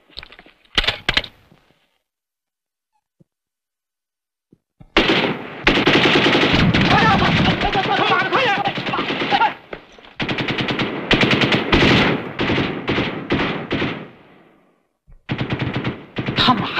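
Machine-gun fire from soldiers in a wartime battle: a couple of brief shots, then a long, loud, sustained burst of rapid automatic fire, followed by several shorter bursts with brief gaps between them.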